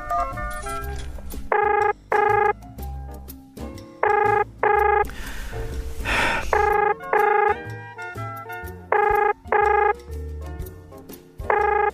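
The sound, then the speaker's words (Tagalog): A phone call ringing unanswered, with loud electronic double-ring bursts repeating at a steady interval over a low background hum and a brief rush of noise midway. “Tawagan mo ulit. Teka, susubukan ko ulit.”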